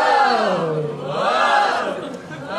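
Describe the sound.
Audience chants a long, unified 'ooh' together, a loud sustained crowd vocal whose pitch wavers, dipping and then swelling before trailing off near the end.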